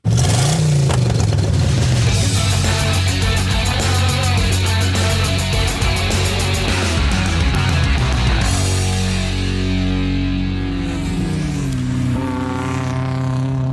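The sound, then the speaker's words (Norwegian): A loud intro jingle with roaring engine-like sounds, dense and continuous for about fourteen seconds, easing slightly toward the end. “Og så kjører jeg jingeren.”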